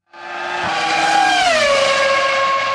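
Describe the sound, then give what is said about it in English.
A Formula One race car screams past at high revs, a loud engine whine with stacked harmonics whose pitch drops partway through and then holds lower. “What? What is that? Oh, really? Is that some Formula One thing?”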